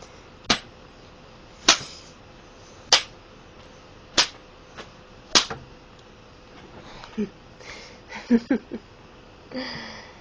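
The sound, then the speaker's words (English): A hand smacking buttocks: five sharp, loud slaps at an even, steady pace, followed by softer, irregular sounds. “I'm gonna smack you 5 more times on each cheek, and I want you to count out loud as I do so.”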